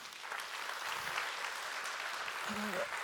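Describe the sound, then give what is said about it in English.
A studio audience claps steadily to welcome a guest, the band's usual drummer, onto the stage. The applause is a dense, even wash of clapping throughout, and a voice is briefly heard near the end. “So, would you guys give a big welcome to Scott?”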